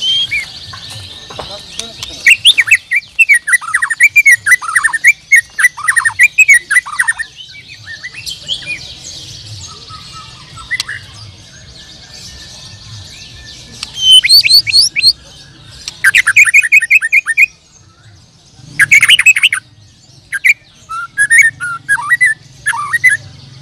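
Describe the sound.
A white-rumped shama sings loudly in bursts of rich whistles, chirps and rapid trills, with short pauses between the varied phrases.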